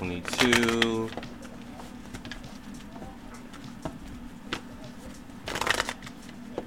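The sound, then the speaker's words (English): Tarot cards being shuffled: a burst of rapid papery riffling near the start and another near the end, with softer card handling and a faint voice in the quiet stretch between. “We're going to pull one card for each sign. And once we pull that card for the sign, we're going to put that card to the side so we don't pull it again.”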